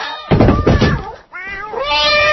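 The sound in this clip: A pet cat meows in a drawn-out, wavering harmonic cry that follows a dull thump. The call is fairly loud and clear.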